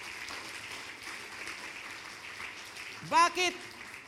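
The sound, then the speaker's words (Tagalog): A church audience applauds with faint, steady clapping, and a voice cuts in briefly near the end. “sige, palakpakan po natin ang Panginoon, no?”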